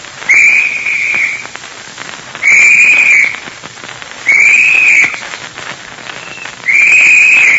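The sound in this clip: Search party whistle signal, four shrill, sustained whistle blasts about a second each, evenly spaced with steady background noise between them.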